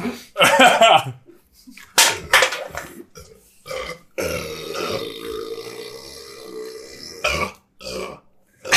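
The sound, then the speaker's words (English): A loud, drawn-out burp after shotgunning a beer, rumbling for about three seconds, with people talking and laughing just before it. “I just burped foam on my leg.”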